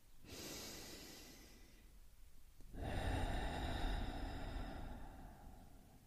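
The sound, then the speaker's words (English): A slow, deep breath in followed by a longer, fuller breath out, both soft and steady with no talking, taken as a calming exercise. “let's take a deep breath in and a deep breath out”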